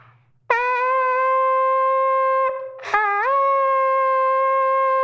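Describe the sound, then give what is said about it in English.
A ram's-horn shofar blown in two long brassy blasts. The first holds steady for about two seconds, then after a brief dip the second blast bends upward in pitch and sustains to the end. “the blow of the shofar of the ram's horn, which sounds like this.”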